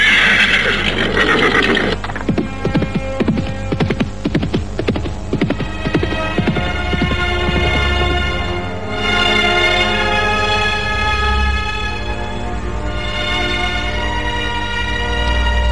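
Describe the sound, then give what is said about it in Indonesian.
A black horse neighs, then breaks into a fast gallop, its hooves striking in a rapid run of low thuds. A loud, steady droning hum sustains underneath and carries on after the hoofbeats fade. “Kuda hitam itu dengan patuh berbalik, lalu berlari dengan kencang.”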